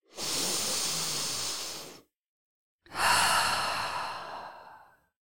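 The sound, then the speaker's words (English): A deep breath drawn and let out: two long, breathy, hissing rushes of air, each lasting about two seconds, separated by a brief silent pause, with no voices. “take a deep breath”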